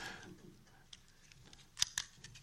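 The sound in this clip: Scissors cut with two quick, crisp snips close together near the end, faint and sharp against a quiet background with light rustling.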